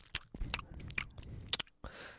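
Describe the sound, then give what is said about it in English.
Wet mouth smacking from saliva: many quick, irregular clicks and smacks, quiet and close, with short gaps between bursts and no speech. “ASMR mouth smacking noise that happens every time I record the show.”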